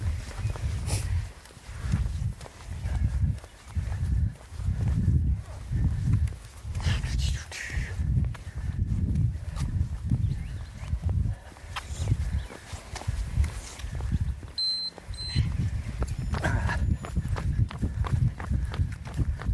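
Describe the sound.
Footsteps of people running outdoors on a road, an even, rhythmic series of many soft thumps keeping a steady jogging pace from start to finish.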